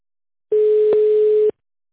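A telephone line tone while a call is being placed: a single steady mid-pitched tone that lasts about a second and sounds alone, with a slight click in the middle.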